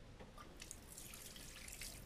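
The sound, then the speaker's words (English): Hands are washed at a hand basin: a faint, steady hiss of running tap water splashes continuously, with light dripping textures and no voices. “First, you must wash your hands. Over there, in the hand basin.”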